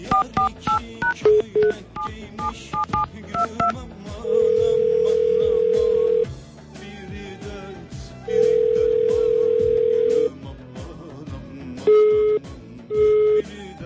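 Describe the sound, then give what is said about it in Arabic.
A telephone call is placed and goes unanswered: a quick run of keypad dialing beeps, then two long, steady ringback tones separated by a gap, and a couple of short tones near the end. “خلينا نتصل به.”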